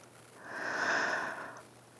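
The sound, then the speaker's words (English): A single deep breath drawn in: one smooth, airy swell that builds and then fades over about a second, heard alone without talk. “Just take a deep breath for me. In”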